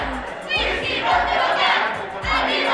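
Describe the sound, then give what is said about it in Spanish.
A crowd shouts a school cheer chant (a porra) at a Mexican school or university event: loud, rhythmic group shouting in repeated bursts, with low thumps between the phrases. “Y en todas las prepas, SHs y facultades hay porras. ¿Cuál es esta? ¿Cuál es la de aquí? A ver. ¿La de acá? ¿Alguien?”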